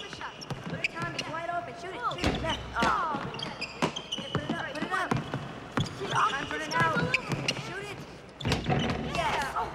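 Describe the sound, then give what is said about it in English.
Basketballs bounce with repeated hard thumps as boys play in a school gym. The bounces come in an uneven rhythm, mixed with voices and chatter. “At school, Rice sits in the gym watching the boys playing basketball.”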